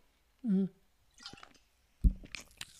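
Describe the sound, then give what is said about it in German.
Someone takes a sip of a drink: quiet slurping followed by soft gulps and wet mouth sounds. “Ich muss mal eben einen Schluck trinken.”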